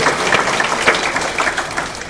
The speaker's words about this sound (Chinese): 我们替他鼓掌。 哎，他也鼓掌。